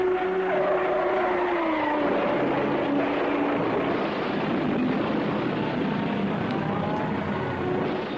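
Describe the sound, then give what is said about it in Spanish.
A Formula 1 Ferrari race car takes a left-hand corner and brakes hard, its loud, screaming engine tone dropping in pitch early on within a dense, continuous roar that stays loud throughout. “Ese es el sonido de un Fórmula 1 tomando una curva de izquierdas, clavando los frenos ante lo que era inevitable.”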